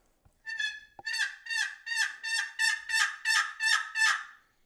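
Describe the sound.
A plain yelp of a turkey hen, made on a turkey call: a run of about nine evenly paced, nasal, raspy notes with a steady rhythm, sounding alone without any talk.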